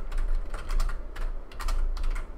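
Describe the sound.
Typing on a computer keyboard comes through as quick bursts of crisp key clicks, several short runs of rapid taps separated by brief pauses, fairly quiet and with no talk over them.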